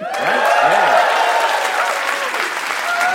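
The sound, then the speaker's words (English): Loud audience applause fills a live storytelling show as the crowd cheers a teller at the end of a story. The clapping is dense and sustained, with a few voices whooping over it early on. “Give it up for Dave Warnicki.”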